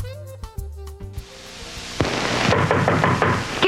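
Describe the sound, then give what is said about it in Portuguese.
Knocking on a door comes as a few sharp raps over a tonal musical backing, followed by a loud, rushing, noisy swell. “É o frio. Não adianta bater, eu não deixo você entrar.”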